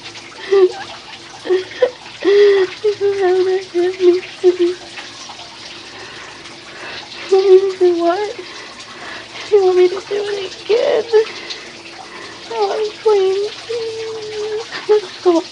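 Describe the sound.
Water runs from a tap while someone washes, a steady splashing gush that continues throughout with a voice talking over it on and off.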